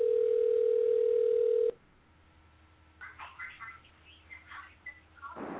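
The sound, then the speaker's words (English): A steady telephone dial tone that holds for under two seconds and then cuts off, leaving a quiet line, followed by muffled talk over the narrow telephone channel. “Can I get a number here and call someone? Let's see. 4, 5, 6, 7, 8. Bam. Do it.”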